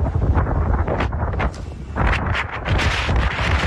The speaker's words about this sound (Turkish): Ardından kuvvetli rüzgar etkisini gösterdi.